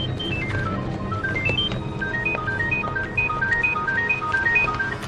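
A telephone rings with a melodic ringtone, running up and down in rapid stepped beeping notes that repeat steadily throughout. The ringtone plays over a constant, fairly loud bed of low background noise.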